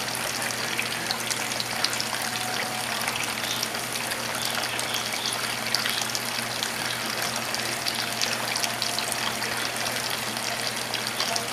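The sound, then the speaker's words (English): Tap water runs steadily while butter is rinsed off a hand during cooking, a continuous even hiss and splash that holds without a break for the whole stretch. “Rinse my hand off.”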